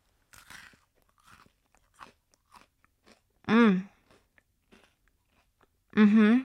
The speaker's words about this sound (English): I tried them in comparison to Maltesers and nothing beats Maltesers. We'll do a little ASMR.